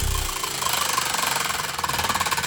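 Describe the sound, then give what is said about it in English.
A prize wheel is spun during a cash giveaway, giving a rapid, even ticking that runs throughout at a fairly loud, steady level. “I've got the wheel here. I'm going to spin it.”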